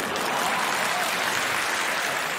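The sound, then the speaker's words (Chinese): Thunderous applause fills the whole clip, a dense, steady roar of many hands clapping at an even loudness, with no voices rising above it. “他们听后沉默不语。 哎，那就表示不认同。 但掌声雷鸣。”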